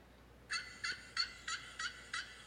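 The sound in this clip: A voice imitates a turkey gobble with six quick, high, nasal warbling bursts in an even rhythm, faint and alone.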